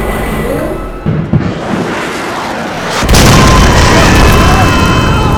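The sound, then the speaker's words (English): A loud mechanical roar accompanies a giant robot's hands extending ten red fingertips. The dense, rumbling noise carries a couple of sharp bursts early on, then swells heavier and louder about halfway through. “Heart is cut short from answering as a loud sound of machinery is followed by the hands of the Dragon Zord sprouting 10 red fingertips.”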